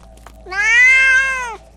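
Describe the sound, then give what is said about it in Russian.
A black, shaggy cat lets out a single long, loud meow, drawn out for about a second with a rich, slightly wavering tone that drops a little at the end, alone against near silence. “На верхних ступеньках сидел черный лохматый кот.”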